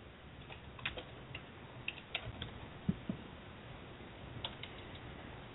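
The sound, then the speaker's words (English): Sparse typing on a computer keyboard, with faint, irregular key clicks scattered through a quiet background and no talking. “Hold on, I'm typing to Steve.”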